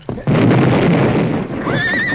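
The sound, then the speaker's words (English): Horses frightened by a rock blast: a broad, loud roar of noise cuts in abruptly and continues, and a high, wavering whinny rises near the end. “Better hold the horses. The blast will scare them”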